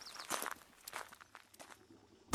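A person's footsteps fall quietly, a handful of soft, irregular steps spaced unevenly, with a sharper final step at the end.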